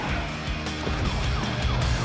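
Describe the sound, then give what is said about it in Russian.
A police car siren wails behind a car on the road, its sweeping tone partly masked by loud, continuous engine and road noise. “Мам, сзади полиция. Прижимайся к обочине, сюда, сюда.”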